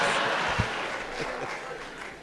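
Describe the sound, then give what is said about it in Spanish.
Applause at a live comedy show in 1993 tapers off, fairly faint, with a single thump early on. “¡Le damos un aplauso, cariñoso!”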